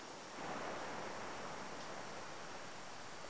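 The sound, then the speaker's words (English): Ocean waves washing in a continuous soft surf, a steady hiss-like roar with no distinct breaks, faint and heard alone. “Just allow yourself to relax, let go, and just listen to the sound of the waves and the sound of a voice.”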